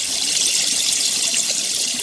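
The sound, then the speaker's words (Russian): Water runs in a steady stream along a floor from a kitchen into a corridor, making a continuous bright rushing hiss with no voices. “Из кухни в коридор уже бежал поток воды.”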